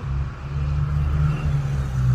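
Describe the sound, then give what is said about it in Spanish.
Several trucks passing on a street give a continuous deep engine rumble with a steady drone that holds for the whole clip. “disculpen el ruido, pero están pasando varios camiones en la calle”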